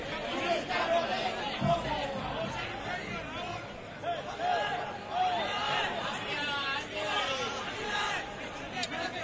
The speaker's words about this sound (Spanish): partido con poco público, se escucha, ¿no? Todas las órdenes de todos los jugadores.